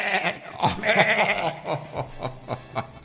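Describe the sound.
A goat bleats in a drawn-out, wavering, nasal call, followed by several shorter pulsing bursts. The sound is moderately faint and stands alone without talk.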